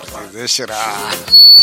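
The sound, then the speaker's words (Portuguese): A whistle is blown: after a stretch of talking, a sharp, loud, high-pitched steady whistle tone cuts in near the end. “Ora bem, estou a apitar exatamente para não chorares.”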